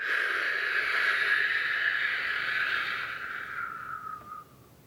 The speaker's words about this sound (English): Breathe all your wind down into your belly. And then blow it out.